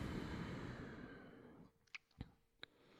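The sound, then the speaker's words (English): A deep breath out during a guided breathing exercise: a long, soft, airy rush that fades away, followed by three faint clicks in near silence. “Let's take a deep breath together. So full inhale. And gently exhale.”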